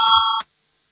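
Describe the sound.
Parliament voting bell: a single electronic tone with bright overtones that holds steady for under half a second, then stops abruptly into silence.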